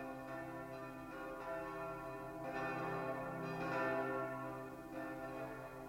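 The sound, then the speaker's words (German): Church bells ring out the old year and ring in the new on New Year's night in Strasbourg. Overlapping tones form a steady, sustained peal for the whole stretch, with no voices. “Die Glocken läuten das alte Jahr aus und das neue ein.”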